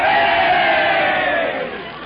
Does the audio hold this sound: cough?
no